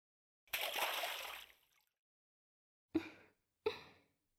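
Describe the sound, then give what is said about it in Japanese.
Water sloshes in a warm in-room bathtub as someone climbs in: one long, full splashing surge lasting about a second, then, after a pause, two short separate splashes. “温かいお湯が体を流れていくのがとっても気持ちいいですわ。それでは一緒に湯船に入りましょう。”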